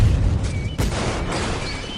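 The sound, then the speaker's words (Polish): A sound-effect explosion as a beheaded creature blows apart, heard as a dense rumbling roar broken by one sharp burst midway, followed by a sustained hiss. “Jednym płynnym cięciem uciął głowę stworowi, a ten wybuchł.”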